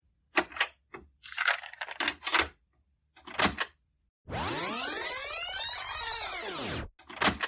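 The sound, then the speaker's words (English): Mechanical clicks and clunks of tape recorder buttons as a tape is started, then a sustained whirring whine that swoops in pitch for a few seconds before another clunk cuts it off. “I shall start Hayden's tape in this tape recorder.”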